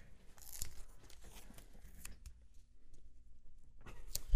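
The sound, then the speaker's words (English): Faint, scratchy tearing and crinkling of tape as a paper sheet is taped down in a studio. A rough, noisy stretch gives way to a quiet pause, then a brief final rip. “Why are you tearing the studio sheet, man? I'm putting it back. I was taping it. I was making it secure. Sounded an awful lot like a tearing noise here.”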